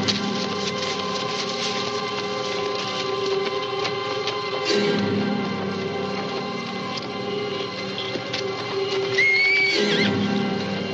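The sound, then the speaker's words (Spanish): A horse neighing twice in a 1968 Western film, each whinny a sharp cry that sweeps downward in pitch, one midway and one near the end, over a continuous dense droning background. “Ante el relinchar del caballo, los dos hombres se ponen en guardia.”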